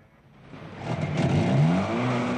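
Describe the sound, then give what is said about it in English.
A car engine starts up after the ignition key is turned, swelling from a low hum into a loud, rising rev and then settling into a steady, full roar. “gets in behind the wheel and turns the ignition key.”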